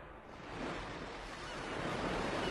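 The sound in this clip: Ocean waves wash in a steady, broad roar of surf that slowly swells louder, heard alone without voices.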